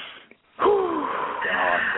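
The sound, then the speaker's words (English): A deep breath drawn in: a loud, long rushing inhale with a wheezy, breathy edge that lasts more than a second after a brief pause. “the first thing I want to do right now is just take a deep breath of this beautiful breath of life”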